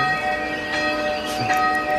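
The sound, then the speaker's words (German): A church bell rings out in sustained, overlapping metallic tones that hang steadily through the whole clip, with no talk. “Viel schöner als die altgeniete Glocke. Viel! Man denkt, da ist ein richtig fetter Engel am Singen.”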